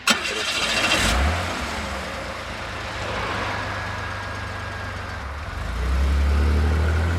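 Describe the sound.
A car engine starts with a sharp burst, settles into a steady low rumble, then swells into louder revving near the end as the car drives off.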